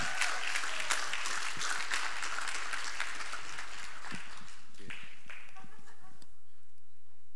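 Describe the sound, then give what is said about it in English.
An audience applauds to welcome Pastor Jonathan before his evening message, a dense, steady clapping that thins out and fades away after about six seconds. “Can you give it up for Pastor Jonathan tonight?”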